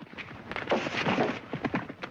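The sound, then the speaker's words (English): Horses gallop at breakneck speed through a gap in fencing, with a posse of riders in pursuit, heard as rapid, rhythmic thudding hoofbeats under a loud rumbling wash of noise. “Frank and Jesse gallop through a gap in some fencing at breakneck speed, followed shortly after by a posse of men in pursuit.”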